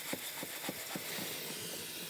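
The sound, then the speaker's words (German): Water running from a tap to fill a sink for soaking floral foam, a faint, steady hiss with a soft, regular low pulsing throughout. “Magst du mal einmal das Waschbecken ziemlich füllen?”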